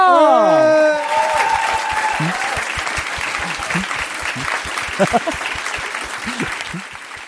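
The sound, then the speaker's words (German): Enthusiastic audience applause, many hands clapping in a dense, steady patter that holds for several seconds without fading. “Einen Riesenapplaus an Maria!”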